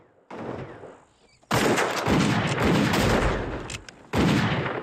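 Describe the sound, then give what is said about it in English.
Heavy gunfire from a shootout, a man shooting from inside a standalone wooden toilet hut as men outside fire back. A few loud, sharp volleys blur into sustained cracking, with a brief lull before the shooting resumes. “Roberts shoots from inside the toilet, and the regulators open fire back at him.”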